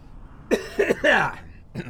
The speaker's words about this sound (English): And then on top of all of that, I'll cough in your ear.